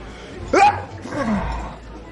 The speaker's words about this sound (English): The man sneezes.